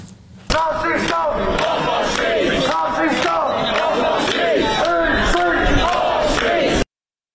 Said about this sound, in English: protesters erupted in Oxford last night as Tommy Robinson appeared at the Oxford Union for a debate